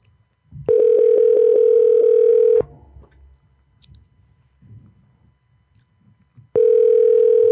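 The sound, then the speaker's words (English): A telephone tone sounds while calling someone back: a steady electronic tone plays for about two seconds, a stretch of quiet line noise with faint clicks follows, then the same tone starts again. “We'll try to call him back one more time”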